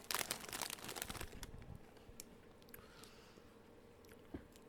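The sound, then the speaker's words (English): Cheese puffs being tasted: faint, busy crinkling of snack packaging fills the first seconds, then quieter scattered crunches and small clicks follow, with no talk. “So excited about puff cheese. Alright. I'm gonna taste it first.”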